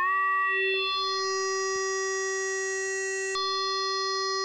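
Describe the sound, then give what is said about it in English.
A synthesizer tone with its wave shape morphed and warped at a high rate sustains as a steady, buzzy pitched note with shifting upper overtones, broken by a brief click near the end. “Change the wave shape maybe so. Yeah, And we'll morph and we'll warp.”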